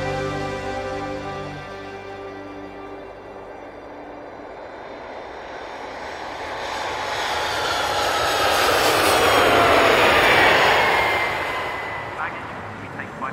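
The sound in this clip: An airplane landing sound effect: a broad jet roar that builds steadily, peaks near the end, then eases off, with a steady low background underneath.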